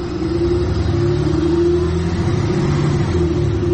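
A car's engine runs as the vehicle arrives, giving a steady low rumble that stays loud and unbroken throughout, with no voices.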